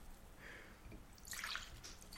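Liquid being poured, a faint, brief splashing trickle with a few soft drips, quiet against low background noise.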